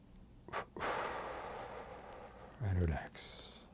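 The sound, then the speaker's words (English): A deep inhalation during a guided evening meditation breathing exercise: a long, soft, airy intake of breath lasting well over a second, then a shorter, louder breath. “So inhale, and then relax. Inhale, count to six and tense.”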